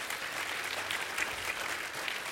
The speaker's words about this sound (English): You guys can, you know, give some applause for that.